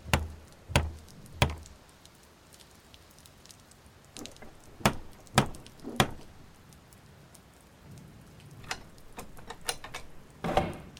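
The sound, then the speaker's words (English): Banging on a door: loud, sharp knocks arrive in short irregular clusters, separated by quieter stretches of low background noise. “and then this looker comes all a banging on the door too.”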